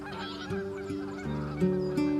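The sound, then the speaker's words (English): Geese honking in the sky above a farm in Scotland: a series of loud, nasal honks at uneven intervals, with no other sounds. “Can you see the birds up in the sky? How many are there?”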